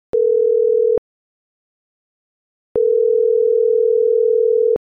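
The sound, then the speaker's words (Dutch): A telephone ringback tone sounds while a call is being placed: two steady, low-pitched electronic beeps separated by silence. The first lasts about a second and the second about two seconds. “Ik ga hem bellen.”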